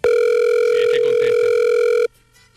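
A telephone line tone during a call holds as one loud, steady, low tone for about two seconds, then cuts off abruptly into near silence.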